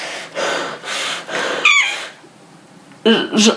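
Mouse squeaking inside a dark factory: a thin, high wavering squeak rises out of soft breathy rustles, followed later by a couple of shorter squeaky chirps.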